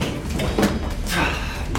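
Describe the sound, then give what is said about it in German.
A sliding elevator door closes with a broad rushing slide and a soft knock, steady and fairly loud, with low background noise throughout. “Die Fahrstuhltür schließt sich direkt vor seiner Nase.”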